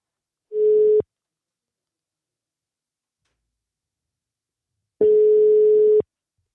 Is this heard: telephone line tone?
yes